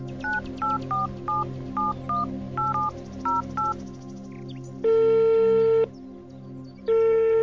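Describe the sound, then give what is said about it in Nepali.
Telephone keypad tones as someone dials a call: a quick run of many short, evenly spaced beeps at varying pitches, followed by two long, steady, louder tones, with no talking. “Shriprasad काकालाई म phone गर्छु”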